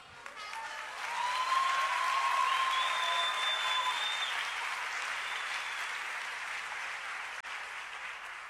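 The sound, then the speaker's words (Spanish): Cheering and applause from an audience at a church youth event, a sustained roar of clapping that swells after the first second and then holds steady, with shrill whistles cutting through early on. “cuando lean ese nombre tienen que gritar y aplaudir porque merece toda la gloria.”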